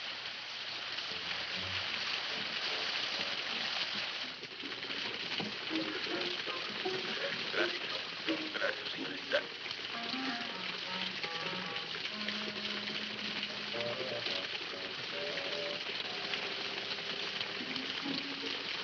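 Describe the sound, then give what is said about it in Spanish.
Rain falls as a steady, continuous hiss that holds at an even level throughout, with faint tonal sounds mixed underneath. “¡Entre a protegerse de la lluvia!”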